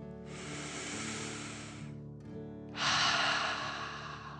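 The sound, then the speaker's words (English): A slow, deep breath drawn in through the nose and let out through the mouth: two long, airy hisses separated by a short pause, the second louder and brighter. “Take another slow, deep breath in through your nose and out your mouth.”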